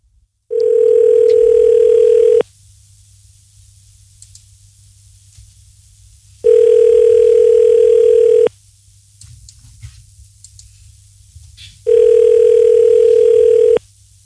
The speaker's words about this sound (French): J'espère qu'on va pas se taper 800 sonneries, quoi.